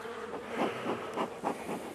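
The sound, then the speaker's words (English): Loose honey bees buzzing around after a hive's honey is harvested. They make a faint, steady insect drone that swells and fades in soft pulses, with no voices. “I'm going to be driving back, aren't all the loose bees are going to go in the car.”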